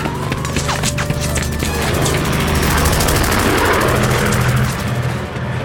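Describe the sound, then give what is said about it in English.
Messerschmitt warplanes fly overhead with a loud, continuous roar of propeller engines and a dense, rumbling drone that fills the whole stretch. “It's not them I'm worried about, it's them! More flying machines! Messerschmitts, run!”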